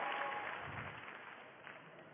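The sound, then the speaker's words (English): An audience applauds with a dense, steady wash of clapping that holds evenly throughout and eases off slightly toward the end. “The idea of people applauding for that little monster. I would never tell her that you applauded.”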